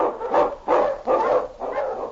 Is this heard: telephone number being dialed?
no